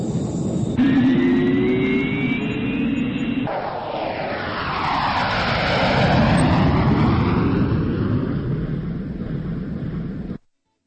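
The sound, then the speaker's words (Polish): An airplane taking off from a runway at Toruń, its aircraft engine roaring continuously, the sound swelling in the middle and holding steady before ending abruptly. “jesteśmy na pasie startowym. Prosimy o zgodę na lot. Tu wieża w Toruniu. Zezwalam. Życzę udanego lotu.”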